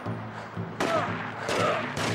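Gunfire from a pump shotgun in a video game: a few sharp, punchy blasts spaced apart over a steady low background tone.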